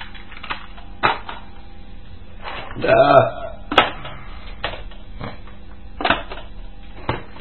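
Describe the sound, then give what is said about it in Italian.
A cassette tape is swapped in a player, heard as a few scattered mechanical clicks and a brief rattling clatter in the middle, against a dull, muffled background. “tutta un'altra cassetta che va bene. Cambiamo nastro.”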